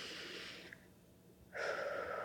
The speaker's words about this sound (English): Deep breath in.